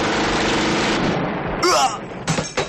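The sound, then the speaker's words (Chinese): A short burst of gunfire as a door swings open in a wartime scene: two sharp, loud cracks close together near the end, after a dense rumbling noise and a brief high cry. “正巧这时门打开了，迎面过来一个点射”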